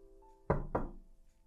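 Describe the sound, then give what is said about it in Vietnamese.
Two firm knocks on a door, a short gap apart, land as dull, solid thuds against a quiet background with a faint steady hum. “Ai gõ cửa vậy?”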